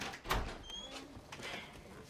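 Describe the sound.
A door being opened gives one soft thud near the start, followed by faint rustling.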